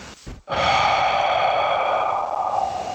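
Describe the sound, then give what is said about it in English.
Slow deep breathing: a short, soft inhale followed by a long, loud, airy exhale that holds steady for a few seconds before easing off. “Take a breath in over the count of three. One, two, three. And exhale over the same count.”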